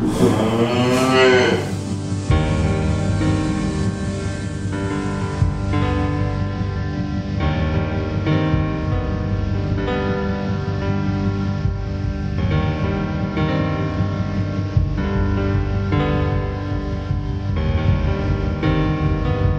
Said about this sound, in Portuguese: E unida, a família bovina entra pro curral.